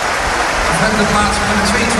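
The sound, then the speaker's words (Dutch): Football crowd applauding a substituted player as he leaves the pitch: a dense, steady wash of clapping that holds at an even level throughout. “Hey, applaus voor hem weer.”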